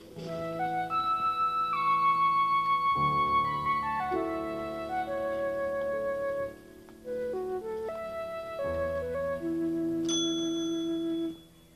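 A bell-like chime rings out as a sustained melodic tune of many clear, ringing notes stepping up and down, loud and continuous for about eleven seconds before stopping abruptly.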